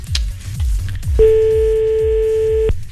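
A telephone ringing tone sounds while a caller waits for an answer: a single steady, mid-pitched tone of about a second and a half over a rhythmic, low pulsing background.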